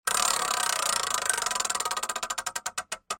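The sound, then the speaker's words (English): A prize wheel spins during a pop culture draft game, its fast ticking clatter gradually slowing into distinct, widely spaced clicks until it comes to rest. “All right, the wheel is spinning.”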